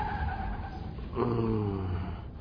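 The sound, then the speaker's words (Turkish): A truck loaded with goods, its tyre just burst, pulls slowly to the side of an empty road and stops in freezing weather; a rough, droning engine tone continues, shifting in pitch midway as it slows. “Ne olacak, lastik patladı. Allah'tan yol boş, gelen giden yok, şöyle yavaşça sağa çekip duruyor.”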